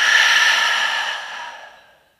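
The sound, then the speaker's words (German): A deep breath is let out through an open mouth as a single long, breathy exhale. It starts fairly loud and fades away over about two seconds, with no talking. “Atme hier mal tief durch die Nase ein und durch den geöffneten Mund aus.”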